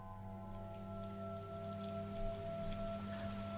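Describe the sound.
Heavy rain falling at night, a continuous, fairly quiet hiss of drops with no clear gusts, under faint steady humming tones.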